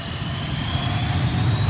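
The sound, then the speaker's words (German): Jet engine roar from a Learjet taking off at a US Army airfield: a steady, broad rushing roar with a thin high whine on top, growing slightly louder toward the end. “Hier hebt ein Learjet ab.”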